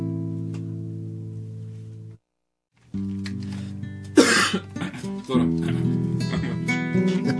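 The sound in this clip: Harsh coughing bursts out over a sustained melodic voice or tune: one loud cough followed by a few smaller coughs and throat sounds before the steady tones continue.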